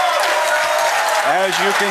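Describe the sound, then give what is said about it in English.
Applause and cheering from a live audience at the SoConCon 2026 conference: dense, steady clapping runs throughout, with voices rising over it near the end. “As you can tell, a very live audience geared up and ready to go”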